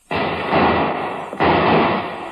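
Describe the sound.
Gunfire in a dramatized fight while boarding a ship: two loud, sharp blasts about a second apart, each followed by a sustained, harsh roar of noise that decays slowly.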